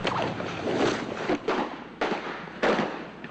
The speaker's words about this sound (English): A scuffle breaks out, which can be seen briefly in the television footage before the shooting begins.